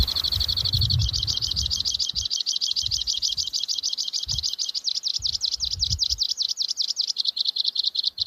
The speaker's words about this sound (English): Yeah, there's two counter singing with him. That's pretty cool. That's one of the only songbirds that actually can nest in the dead of winter.